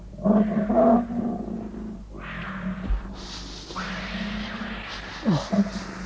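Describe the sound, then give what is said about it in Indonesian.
A tiger roars in a forest full of wild animals: a few rough, rumbling roars with a deep growling undertone, loud at the start and then continuing at a steadier level. “Harimau. Bagaimana ini? Bagaimana kalau harimau itu kemari?”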